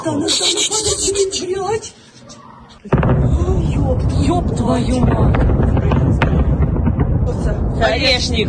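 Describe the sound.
Sudden loud blast of an Oreshnik hypersonic missile strike on Kyiv, bursting in after a brief quieter lull and giving way to sustained roaring, rumbling noise while people talk excitedly.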